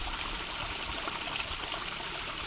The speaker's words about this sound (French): Je sais pas s'il est possible de percevoir derrière le roulis de l'eau un espèce de bruit de tube un peu plus électrique. En ce moment, on est dans les tuyaux.